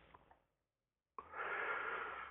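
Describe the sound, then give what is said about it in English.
A slow, deep breath during a guided breathing meditation: after a short near-silence, a steady airy rush of breath starts abruptly and holds evenly for over a second. “notice that you could consciously decide at any time to take another nice, slow, deep breath.”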